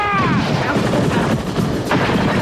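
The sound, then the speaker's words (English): Gunshots are fired into the air in a dense, loud barrage of cracking blasts that merge into a continuous roar. “You run right up the stands, man. Taking those stairs two at a time, firing into the air.”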